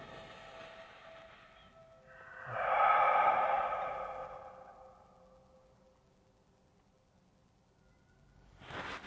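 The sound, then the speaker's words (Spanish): A slow, deep breath during a guided relaxation exercise, swelling and fading over about two seconds, with another breath beginning at the very end; soft and heard alone. “Eso, otra vez respiramos hondo.”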